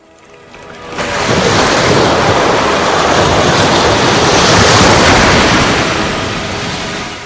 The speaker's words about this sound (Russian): «Налегите изо всех сил! Сейчас мы проходим прибой!»